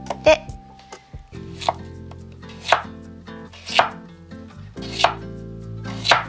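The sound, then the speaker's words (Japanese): A knife chops firmly through new potatoes, cutting them in half with several sharp, separate strokes spaced roughly a second apart, with no talk. “1つがちょっと大きめなんですねそういう場合は半分にまずザクッと”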